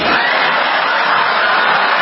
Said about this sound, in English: That's what the audience sounds like to me.